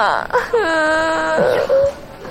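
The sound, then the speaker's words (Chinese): A girl crying loudly: a drawn-out, wavering wail that dips and then holds a steady, strained pitch, breaking off into a short sobbing catch at the end. “不哭不哭啊，咋的了？不哭不哭”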